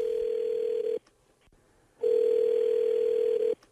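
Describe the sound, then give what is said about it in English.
Telephone tone while a number is dialed for a call: two long, steady, even beeps separated by a brief silence, loud and alone. “Let's dial that number.”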